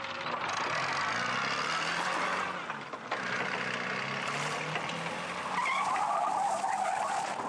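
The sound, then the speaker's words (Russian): A Land Rover speeds off out of a building with its tires skidding and squealing, a loud, sustained screech and engine roar that runs throughout with only a brief dip partway. “Сталкер прыгает за руль, профессор садится рядом. Машина выезжает из здания.”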